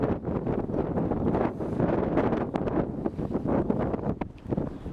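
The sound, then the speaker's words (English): Strong wind blowing outdoors at roughly 30 to 40 miles an hour in Europe, heard as a loud, continuous rumbling roar of gusts buffeting the microphone with no breaks. “The wind's probably blowing 30, 40 miles an hour.”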